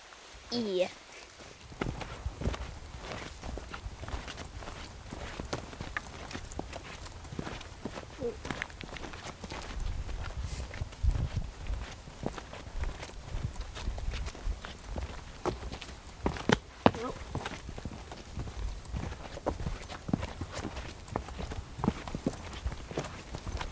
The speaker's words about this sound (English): We're walking on the Coppermine Trail.